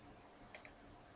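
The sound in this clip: A computer mouse clicks twice in quick succession, two faint, crisp ticks close together over a quiet background hiss.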